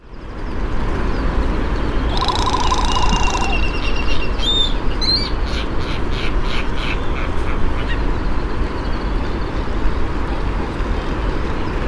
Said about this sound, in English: Hawaiian Goose.